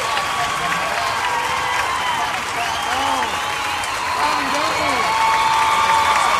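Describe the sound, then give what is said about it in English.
Audience applause and cheering as a guest is welcomed at a live show: dense, steady clapping with whoops and shouts, loud and unbroken for the whole stretch. “Yeah, I mean, the audience is going crazy.”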